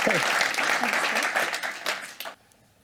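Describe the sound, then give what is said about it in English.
An audience applauds a guest speaker at a talk event. Thick, lively clapping runs steadily for about two seconds, then cuts off abruptly into near silence. “So I wonder if we could give Cathy a round of applause for joining us.”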